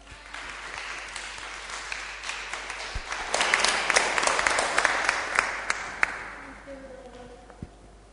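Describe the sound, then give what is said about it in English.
Audience applause welcoming a preacher at a church gathering. The clapping starts moderate, swells to a dense peak midway, then thins out near the end as a voice comes in. “So why don't we just get our hands together and give Ken a big welcome as he brings the word of God.”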